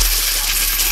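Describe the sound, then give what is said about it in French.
Coins jingle and pour in a continuous metallic shower for about a second, a bright, steady rush with no talk, standing for cash prizes in a summer cash giveaway game. “C'est pas le bruit des cigales, c'est le bruit du cash.”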